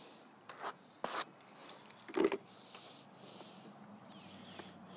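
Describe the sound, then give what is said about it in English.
Fibre being carded with medium-range Ashford hand carders gives soft, scratchy brushing. A few quick rasping strokes stand out, with quieter rubbing between them, all faint. “I really like these Carders. I think they're the medium range for Ashford.”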